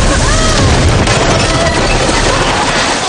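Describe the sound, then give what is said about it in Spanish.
A huge burst of water explodes in a supernatural thriller scene, a loud, dense roaring blast with a deep boom that stays strong and steady throughout. “el cuerpo de Ángela sale despedido en medio de un inmenso estallido de agua”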